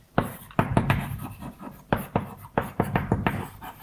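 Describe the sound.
Handwriting during a mathematics lecture: many sharp taps and short scratching strokes in an irregular rhythm, fairly faint, with no speech over them.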